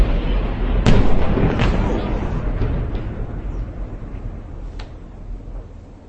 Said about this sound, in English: It's not clear if those are secondary explosions or if those are multiple rockets going into the building.